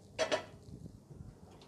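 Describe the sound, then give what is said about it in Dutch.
Two quick, ringing clinks as a baking dish holding roasting chicken with lemon and garlic is lifted out of the oven after half an hour, followed by faint, soft clattering. “Dus ik haal eventjes de schaal uit de oven.”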